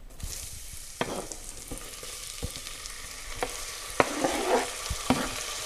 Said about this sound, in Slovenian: Zdaj sem v loncu segrel maslo in tudi malo olja sem dodal, da se maslo ne bo zažgalo. In zdaj bom torej v maslu opražil čebulo.